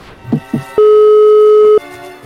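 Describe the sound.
A telephone line tone sounds as a call is placed: a single loud, steady tone lasting about one second, with a couple of faint short sounds just before it.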